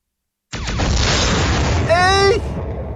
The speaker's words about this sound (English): Shall we fire, negotiate, or retreat? Fire!